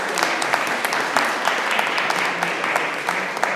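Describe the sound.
Audience applause greets a speaker being introduced on stage: dense, steady clapping that holds at an even level for the full few seconds.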